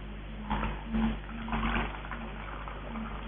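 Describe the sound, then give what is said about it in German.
Water is poured into a container in a few short, soft splashing gushes, with quieter trickling between them. “Seht mal, wenn ich hier dieses wunderschöne Wasser reintue”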